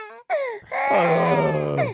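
A baby crying: a brief wavering cry, a short gap, then a long, loud, sustained wail that holds steady before easing at the end.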